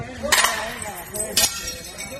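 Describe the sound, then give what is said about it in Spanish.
Plates smash in two sharp crashing bursts as restaurant owners break dishes outside tax offices in protest, with crowd voices in the background. “Con este gesto de romper los platos denuncian que a ellos, a los hosteleros, les ha tocado pagar los platos rotos del conjunto.”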